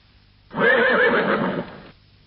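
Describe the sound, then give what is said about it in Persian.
A saddled horse gives a single loud whinny lasting just over a second. The call is a tremulous, wavering neigh heard alone, then it fades. “اسبت را زین کردم.”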